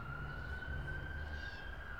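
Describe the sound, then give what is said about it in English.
An emergency vehicle siren holds a faint, steady high tone over the low rumble of busy Friday evening traffic in London, Ontario. “traffic going hard, emergency sirens already ringing”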